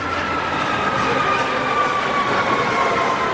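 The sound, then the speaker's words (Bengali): A metro train pulls into a station with a loud, continuous rumble of rolling wheels and a steady high-pitched wheel squeal running through it. “সোমবার সকাল, অরিন্দম কবি Nazrul metro স্টেশনে দাঁড়িয়ে দূর থেকে দেখতে পাচ্ছে ট্রেন ঢুকছে। বুকটা একবার থক করে উঠল ওর। ট্রেনটা কাছে এগিয়ে আসছে,”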